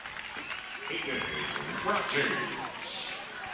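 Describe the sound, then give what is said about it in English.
A basketball is dribbled on the court during a game, with faint repeated bounces heard under a commentator's talk and steady crowd noise. “He's going to be dribbling at the top of the key.”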